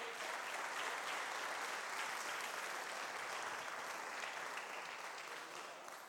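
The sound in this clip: A church audience applauding during a service: dense, steady clapping holds evenly from start to finish, fairly faint, with no clear voices over it.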